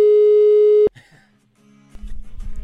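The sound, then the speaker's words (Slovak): A steady, loud telephone line tone sounds while a call is being placed. It holds for just under a second, then cuts off, leaving faint clicks and a low rumble. “ideme telefonovať, ona nám sama odpovie.”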